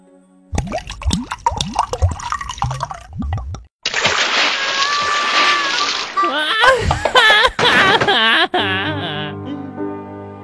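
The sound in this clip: Splash of a character landing in a pond: a sudden broad watery burst followed by sloshing and dripping, with a voice talking beforehand and giggling over the water.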